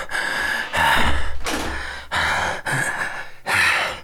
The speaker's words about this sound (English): You know I'm always out of breath after flying from a heavy day's work.